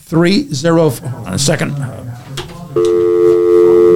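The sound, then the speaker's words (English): After a caller hangs up, a telephone line gives a loud, steady, continuous tone. A voice speaks just before the tone takes over. “Somebody hung up here already.”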